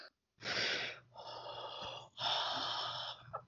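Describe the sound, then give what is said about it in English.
A human voice imitates heavy mechanical respirator breathing, producing about three long, harsh, rasping breaths with short gaps between them, fairly loud and alone without words. “I expect really horrible breath. Darth Vader right breath. Now. You gotta do the breath.”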